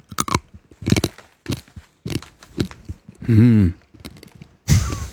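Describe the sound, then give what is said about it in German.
Whole unground coffee beans crunch between the teeth in a few bursts of sharp, dry cracking, with a brief voiced hum partway through. “Frisst du den ganzen Kaffee auf? Na, wie soll ich ihn sonst rausfinden, wie er schmeckt?”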